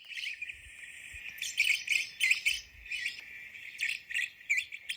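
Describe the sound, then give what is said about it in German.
Black-cheeked lovebirds calling: many shrill, high-pitched chirps and squeaks in rapid, overlapping bursts, loud and continuous. “Und wir hören uns jetzt mal die Rußköpfchen, die Black-Cheeked Lovebirds an. So klingen sie.”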